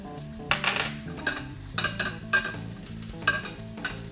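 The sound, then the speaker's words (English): Rice is scraped from a bowl into a big sauté pot. Several sharp scraping strokes and utensil clinks come at an uneven rhythm over a steady background sizzle from the pan. “Scrape the rice out of the bowl here into the big saute pot.”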